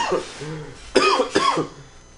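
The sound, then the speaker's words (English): A person coughs twice in close succession, two harsh bursts after a brief throaty, voiced sound. Both coughs are fairly loud against a quiet background. “keep coughing. Sounds good.”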